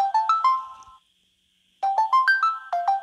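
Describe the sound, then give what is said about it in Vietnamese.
A telephone ringtone for an incoming call plays a short phrase of bright electronic notes. It stops for under a second, then repeats a longer run of stepped tones at moderate loudness. “Ai mà gọi trong gian này?”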